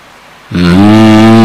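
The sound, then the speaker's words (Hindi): A human voice imitates a cow mooing loudly: a single deep, sustained lowing call that starts abruptly and holds a steady low pitch to the end. “कुछ गाय उनके पीछे पीछे आने लगे, जोर से रंभाने लगे।”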